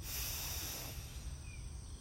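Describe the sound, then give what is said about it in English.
A slow, deep inhale: a soft, breathy hiss that holds steady for about two seconds, quiet and alone with no talking. “Take a deep breath in”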